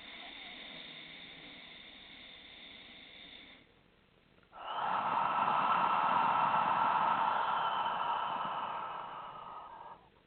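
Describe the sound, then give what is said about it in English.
A slow Ujjayi inhale drawn through a narrowed throat: a steady, breathy hushing rasp that swells after a brief quiet gap, holds for several seconds and then fades, following a softer breath. “and exhale. And again, inhale.”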